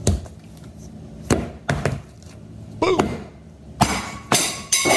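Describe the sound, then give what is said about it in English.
A can of biscuit dough popping open, heard as a few sharp knocks and dull thuds spaced apart, some with short bursts of hiss, over a quiet background. “That's just a can of biscuits popping open.”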